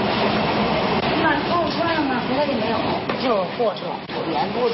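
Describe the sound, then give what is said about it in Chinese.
A train rumbles past on a railway beside a newly built apartment building on railway land. Its noise is steady and continuous, and people talk over it throughout. “你看一会儿一火车就过来。 哦，你听这声音。”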